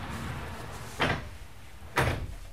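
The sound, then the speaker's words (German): A sliding door opened by a building physicist in a building-physics institute lab: two short, sharp swishing bursts about a second apart over a steady background hiss, with no talking. “Der Bauphysiker öffnet eine Schiebetür und zieht die Abdeckung von einem riesigen runden Spiegel.”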